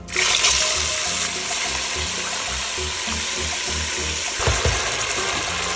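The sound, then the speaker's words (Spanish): Chopped pork cracklings seasoned with salt and dark sauce fry in very hot oil, a loud, continuous sizzling hiss with crackle throughout and a few low knocks beneath. “Fritar en un aceite bien caliente.”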